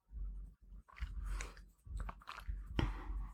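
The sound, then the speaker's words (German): Faint sipping of coffee: several soft, breathy slurps and swallows in a loose, uneven rhythm, with short gaps between them and no talk. “während ich jetzt einen Schluck von meinem Kaffee trinke.”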